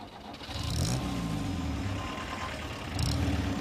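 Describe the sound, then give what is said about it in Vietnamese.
A car's engine rumbles loudly and steadily as the vehicle drives on, the noise swelling again briefly near the end, with no voices heard. “Chiếc xe đi tiếp rồi. Chạy trước họ đi.”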